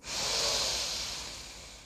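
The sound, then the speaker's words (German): A single long inhale through the nose, a soft, breathy hiss of airflow that swells quickly and then tapers off slowly over about two seconds, heard alone. “Ich atme ein durch die Nase.”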